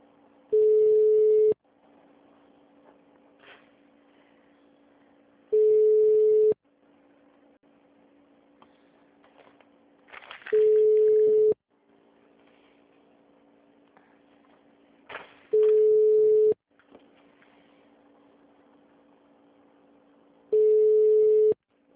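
Telephone line tone while a call is being transferred: a flat, mid-pitched beep about a second long repeats five times at even intervals of roughly five seconds, with faint line noise and brief crackles in the gaps.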